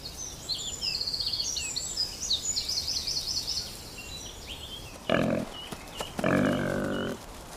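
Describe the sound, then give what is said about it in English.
Squeals of a striped wild boar piglet in the Forest of Dean: two loud, harsh bursts near the end. Birds chirp over steady background noise before them. “This stripy piglet, known as a humbug, is part of a wild boar baby boom.”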